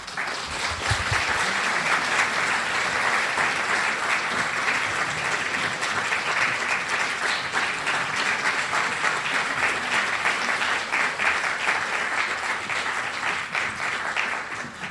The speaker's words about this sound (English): And so I encourage you to give them both a warm Philadelphia welcome.